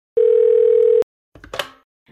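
A telephone dial tone plays as one steady, loud, single-pitched hum lasting under a second, then stops abruptly; a brief burst of noise follows.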